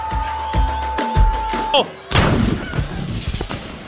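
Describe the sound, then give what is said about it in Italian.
A gunshot sound effect in a comedic radio sketch: one sharp, loud blast bursts in about halfway through, after voices and a steady held tone, and trails off into a rough, noisy tail. “S'è sparato il cronista!”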